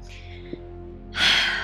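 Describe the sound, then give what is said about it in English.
A deep breath is drawn in: a single loud, breathy rush lasting about half a second, heard near the end over a low, steady background tone. “Deep breath.”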